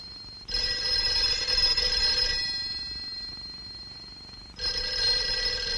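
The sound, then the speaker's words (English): A bedside telephone rings at night in a bedroom, sounding two long, loud ringing bursts separated by a pause, with the second burst continuing to the end; no voices are heard. “He turns on the bedside light and answers the phone.”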